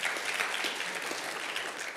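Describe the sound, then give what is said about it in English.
Audience clapping at a sermon, a dense, even wash of many hands applauding steadily throughout at moderate volume. “You all should clap, like hallelujah.”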